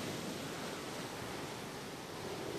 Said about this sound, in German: Meeresbrandung. Wind leise in den Palmen.